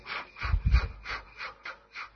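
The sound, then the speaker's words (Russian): Short, rapid forced exhalations from a breathing exercise, each pushed out with an abdominal thrust after a deep inhale. They form a quick, even run of breathy puffs with no talk over them. “Нужно сделать большой вдох и короткими, частыми, быстрыми выдохами подключить толчки живота.”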